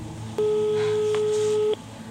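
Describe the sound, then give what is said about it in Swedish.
Telephone ringing for an incoming call: a single steady, sustained electronic tone lasting over a second, over a constant low hum. “Jag har ett samtal.”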